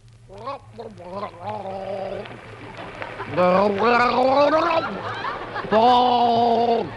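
Vocal gargling from a person cleaning his teeth: wavering, bubbly voiced gurgles in three bursts, the last two louder and higher, in a comic performance.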